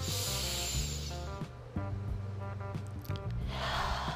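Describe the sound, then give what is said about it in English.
A deep breath drawn in and let out in a relaxation exercise, a soft airy hiss at the start and again near the end over a sustained low tonal background, with no talk. “So deep breath in.”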